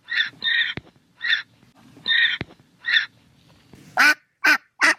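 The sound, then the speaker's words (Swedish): A drake gives a few soft, raspy, evenly spaced quacks separated by quiet gaps. Three louder, sharper quacks follow in quick succession at the end. “Vi lyssnar igen. Först hananka.”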